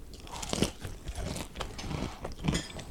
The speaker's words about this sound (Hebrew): רגע, אני עושה עוד ביס.